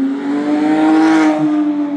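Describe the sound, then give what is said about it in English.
A Porsche sports car engine accelerates out of a driveway at a Porsche owners' gathering: a loud, steady, buzzing drone with strong harmonics that holds for the full two seconds, with no talk. “Check that out. The sound of a Porsche shooting out.”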